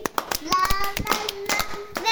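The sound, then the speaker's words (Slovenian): Hands clap in time with a Slovenian children's song, a steady run of sharp claps over a sung voice and melody. “Zaploskaj si,”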